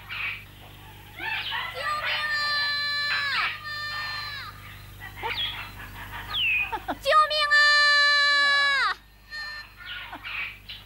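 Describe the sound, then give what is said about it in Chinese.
A child cries in loud, high, drawn-out wails that rise and break, repeating several times with short pauses between them. “咦，悟空，你听，确实是个孩子。”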